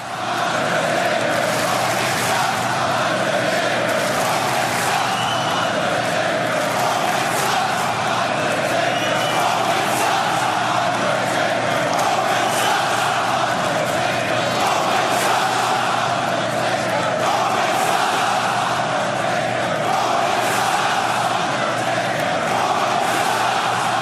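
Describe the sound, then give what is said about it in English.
A wrestling crowd at a 2017 event voices its reaction to Roman Reigns in a loud, continuous roar of mixed yelling and cheering that holds steady for the whole stretch with no pause. “But the crowd basically voiced how they felt about Roman Reigns.”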